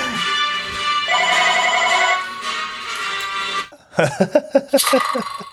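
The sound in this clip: Telephone ringing with a bright, melodic electronic ringtone that plays steadily for several seconds. A few short, sharp bursts of sound follow.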